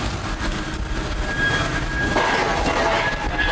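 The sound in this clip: Steady, loud rumbling and rattling of wagons on a track-laying construction train carrying a conveyor belt for railway sleepers, with faint thin squealing tones over the continuous noise.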